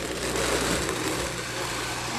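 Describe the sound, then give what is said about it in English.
A blender motor runs steadily while blending water and ice, giving a constant, even whirring drone with no clear change in speed over the short stretch. “And we're going to put this on our nice blender. Okay, start it low. Crank it up.”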